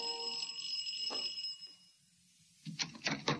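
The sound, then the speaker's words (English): An apartment doorbell rings, a sustained bright electronic tone held for about a second and a half. It is followed by a short quiet gap and then a few sharper, noisier bursts. “here I was still ringing their apartment bell.”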